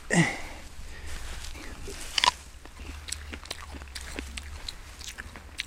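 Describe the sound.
Biting into and chewing a small, sour wild fruit about the size of a ping-pong ball. A sharp crisp bite stands out, followed by faint, irregular crunchy chewing clicks over a low steady hum.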